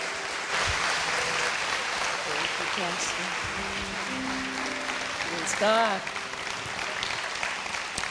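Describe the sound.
An audience applauds to welcome a reverend to the stage at a Jackson, Mississippi worship gathering. The clapping is sustained and steady for about eight seconds, with voices and scattered tones over it.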